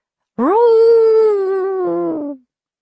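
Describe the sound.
A dog howls once on the deck of a sailing ship heading out to open sea. The single long, loud wail holds a steady pitch for about two seconds, rising at its onset and fading away at the end.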